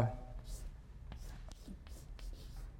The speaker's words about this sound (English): So am I writing big enough? You can see?